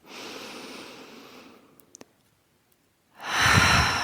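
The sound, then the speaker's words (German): Breathing during a guided relaxation exercise: a long, soft breath drawn in through the nose fades out, a quiet pause follows, then a louder, fuller breath is let out through the open mouth, with no talking. “Und das machen wir jetzt nochmal zusammen, dass wir einatmen durch die Nase.”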